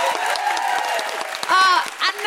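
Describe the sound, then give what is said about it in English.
Festival audience applause, dense continuous clapping from a crowd with cheering and whoops rising near the end. “A huge round of applause for the incredible Jade Adams.”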